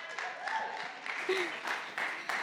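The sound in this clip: A church audience applauds to welcome a pastor up to preach at a Sunday service: steady, dense clapping that holds at an even level throughout.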